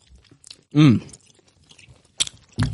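A juicy red fruit-flavoured American lolly is bitten with one loud, wet crunch, followed by a few shorter, quieter chewing crunches.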